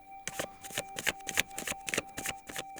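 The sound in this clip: Tarot cards shuffled for a reading: a rapid run of soft, papery riffles and flicks, many brief crisp bursts in an uneven rhythm, with no voices.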